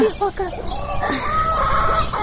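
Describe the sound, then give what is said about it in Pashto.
Domestic hens cluck in a few short, nasal bursts at the start, followed by a longer, sustained higher call over a steady, noisy background. The sounds are fairly loud throughout. “وی دا چرګانې دې ورکې شي”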